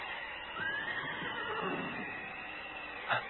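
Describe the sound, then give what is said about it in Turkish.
A horse whinnies in a Turkish radio drama set during a storm, giving a drawn-out, wavering neigh over a steady rushing background noise. “Bir at sesi mi duydum?”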